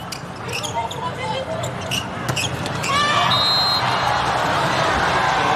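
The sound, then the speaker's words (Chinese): A few sharp bounces of a volleyball on the court as a middle blocker prepares to serve during a match against Poland, heard over steady crowd noise that grows louder toward the end. “副攻手郭中南来发球”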